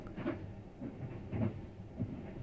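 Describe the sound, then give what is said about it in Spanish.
Inside a moving train in Japan, a quiet, steady low rumble carries a few soft knocks that recur at a regular rhythm. “Por lo pronto sigo acá, en este tren, que sigue avanzando.”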